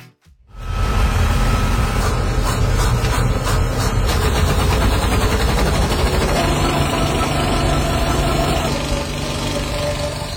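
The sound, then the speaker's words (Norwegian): A large, noisy film reel camera runs with a dense, loud mechanical whir and clatter. The continuous drone holds steady for about ten seconds with no breaks. “Men når man skal bruke sånne svære støyende filmrullkamera,”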